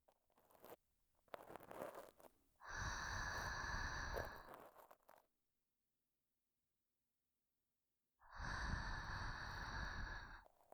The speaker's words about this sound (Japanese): もっと、もっとお耳、ふうふうしてあげる。